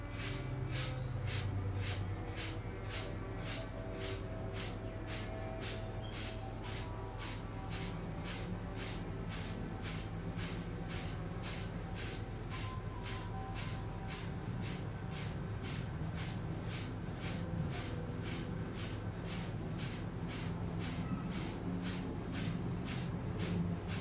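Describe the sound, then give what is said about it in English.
Rapid, forceful abdominal breathing pumps, many sharp nasal breath bursts repeating at an even, brisk rhythm of about two per second, each a short hissing puff, continuing steadily through the whole stretch. “Take a nice deep breath in, and we'll come into our 60 abdominal pumps.”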